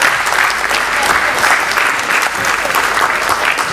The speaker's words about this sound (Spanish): un aplauso a las experiencias.